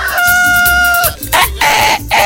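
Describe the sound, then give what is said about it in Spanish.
A rooster crow: a loud, sustained tonal call lasting about a second, followed by harsher, noisier bursts, with a low pulsing rumble underneath throughout. “Ustedes saben cómo cantan los gallos, ¿verdad? Claramente, yo sé que saben cómo cantan los gallos.”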